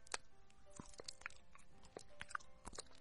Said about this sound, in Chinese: 来听我吃水果，来听我吃水果